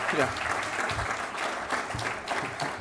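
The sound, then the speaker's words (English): Applause from the audience at an Alcoholics Anonymous meeting, a steady run of clapping with voices mixed in underneath. “You guys pick that up real quick. In the States, we clap for that.”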